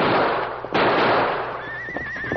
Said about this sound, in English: Look. Pack horse break loose.